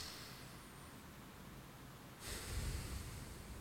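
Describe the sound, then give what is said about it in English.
Breath released through the nose during a calming breathing exercise: a soft, airy rush that swells louder about two-thirds of the way through and carries on to the end. “and then release all the way. Also through the nose.”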